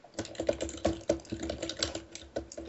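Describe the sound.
Typing on a computer keyboard: quick, irregular clusters of soft keystrokes with brief pauses, fairly faint and with no voices over it.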